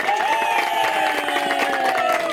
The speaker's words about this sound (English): Yay! Plenty of applauses right now.